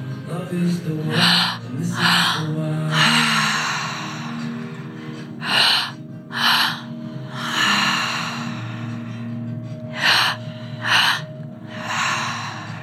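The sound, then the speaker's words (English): Deep, forceful breaths at a live breathwork and meditation session in a Lululemon store, a series of audible inhales and exhales in uneven bursts over a steady drone of background music. “Stay with this breath and allow yourself to start to tune into what it feels like to be bringing this much breath into your body.”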